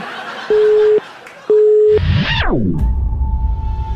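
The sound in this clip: Telephone line tones as a prank call is placed: two evenly spaced, steady beeps, then a loud sweep that falls in pitch, followed by a continuous tone under a noisy line.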